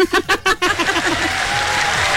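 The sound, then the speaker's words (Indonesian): Applause from an audience: a few distinct separate claps open, then dense, steady clapping continues to the end at an even level. “Ya, kita bagi tepukan gemuruh walaupun ada dia lari sikit lah.”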